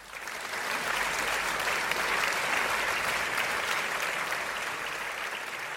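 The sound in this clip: Applause from a studio audience welcoming a talk show guest calling in from Los Angeles, swelling in quickly and then holding as a dense, steady clapping for several seconds, with no talk over it.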